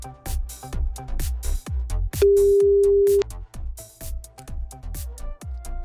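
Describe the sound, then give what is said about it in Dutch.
Ringing tone of an outgoing telephone call, heard as one steady, mid-pitched tone lasting about a second over a rhythmic musical beat that carries on before and after it. “We gaan hem maar nu eventjes bellen, want blijkbaar lukt dat niet helemaal met onze wifi. Dat hebben we wel eens hier bij Radio 1. Ah, gaat over.”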